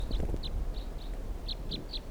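A bird calls up in the trees, giving a quick, uneven series of short, high chirps over a low, rumbling background noise.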